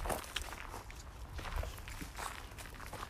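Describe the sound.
Quiet footsteps of a person walking a dog home, a soft, steady series of scuffing steps in an even walking rhythm, with no other clear sound over them.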